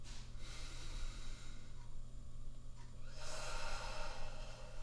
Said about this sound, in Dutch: Adem dan diep in en uit. In door je neus, uit door je mond.